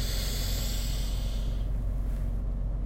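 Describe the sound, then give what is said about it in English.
A deep breath drawn in through the nose: a steady, airy rush of air that holds for about a second and a half, then thins out and fades. “Release. Inhale deeply.”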